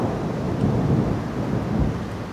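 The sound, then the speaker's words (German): Thunderstorm: a loud, unbroken low rumble of thunder mixed with steady rain noise, running throughout with no voices. “Das Gewitter.”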